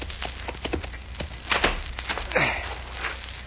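Clip-clop of horse hooves as a rider comes up to a big ranch house, many sharp, fairly regular hoof strikes of moderate loudness.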